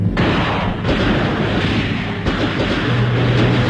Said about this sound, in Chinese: 游击队轻机枪的子弹雨点儿般泻向敌阵，队员们散步水中一起猛打，敌人伏在船上还击。